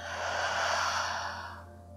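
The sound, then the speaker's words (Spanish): Air pushed out through the mouth in a single long, steady breathy exhale during a guided breathing exercise, holding even for over a second before cutting off, with no talk. “Inhala de forma natural. Exhala por tu boca, suelta todo el aire.”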